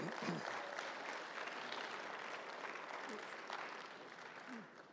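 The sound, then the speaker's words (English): Audience applause: a steady wash of many hands clapping together that holds evenly throughout and tapers slightly at the end. “that clap is for her much more than for me, believe me.”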